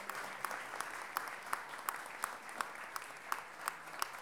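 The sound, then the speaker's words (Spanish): Audience applause at a feminist music gathering. Louder claps beat out a steady rhythm about three times a second over softer scattered clapping, and the whole stays fairly quiet. “Nata Ursúa, un aplauso grande”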